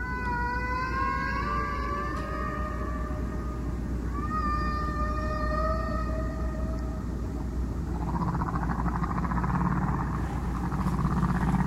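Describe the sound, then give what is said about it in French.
Humpback whale song: long tonal moans and wailing calls with stacked harmonics, several sweeping upward, one after another with no pauses over a steady low rumble, with no voices. “On va l'écouter. Face 1. Un solo de baleines.”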